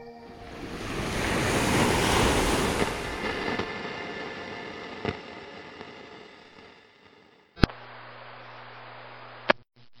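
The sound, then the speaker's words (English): Ocean tide waves surge in a broad roaring hiss that swells, then slowly ebbs away. A sharp click follows, then a steadier, thinner wash of surf. “Tides.”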